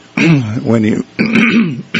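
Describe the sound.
A person repeatedly clears their throat with a cough: two loud, rough, voiced bursts separated by a brief pause, the second slightly shorter, heard alone without other talk.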